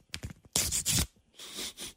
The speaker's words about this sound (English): We're going to open up this envelope.